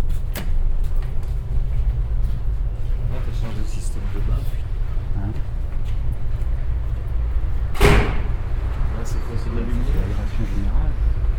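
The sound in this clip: Doors on a building's north facade open with one prominent scraping, rushing burst near the end. A steady low rumble runs throughout, and people talk over it.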